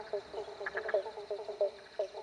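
Frog croaking, heard as many short, evenly spaced croaks in a steady rhythm at a quiet level.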